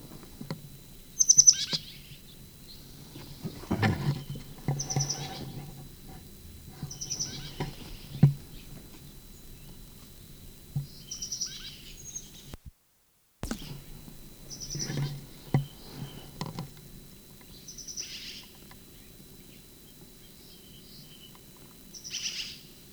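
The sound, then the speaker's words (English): Bird peeps and song from a bird in a sycamore tree: short, high chirps recur every few seconds over a low, steady rumble, with no other voices. “Sycamore bird. First peep.”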